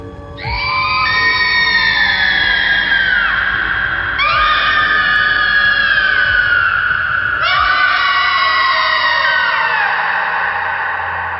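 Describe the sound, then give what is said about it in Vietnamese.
Shrill, piercing screeches wail like a ghost howling madly, sounding as three long, loud cries. Each starts high and slides downward in pitch, one running into the next. “đang nghe vọng ra tiếng rít réo chói tai, như có một hồn ma nữa đang điên cuồng gào thét.”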